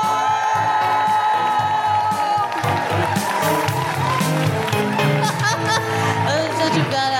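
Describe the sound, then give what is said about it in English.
A live comedy audience in Newcastle applauds and cheers to welcome a performer, with loud, steady clapping and whoops filling the whole stretch. “Put your hands together and make incredible woohooing noises for the wonderful Kemah Bob!”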